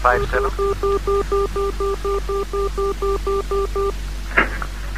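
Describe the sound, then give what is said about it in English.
Telephone number dialed on a keypad: a rapid, evenly paced run of many short two-tone beeps, clear and fairly loud, ending before a brief louder sound near the close. “I dialed Haywood 357.”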